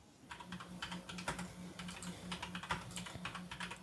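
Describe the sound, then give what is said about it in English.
Someone types a web search on a computer keyboard, many quick, faint key clicks in an uneven rhythm over a low steady hum. “What if you just do like a general web search? I'm not sure if it'll let me from here. Let me just type in Project Bluebeam.”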